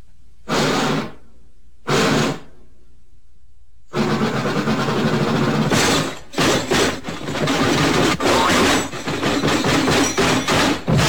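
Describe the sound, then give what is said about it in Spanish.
Casey Junior, the Disney circus train, coming along the track: two short loud bursts separated by silence, then a long stretch of dense chugging rumble with brief breaks. “¿Cuál tren? ¡Casey Junior! ¡Exacto! Creo escuchar que ahí viene. Viene por la vía.”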